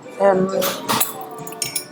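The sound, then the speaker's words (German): A bright glassy clink as an ice cube drops into a glass, a short sharp knock heard under a person speaking. “der Eiswürfel reingefallen”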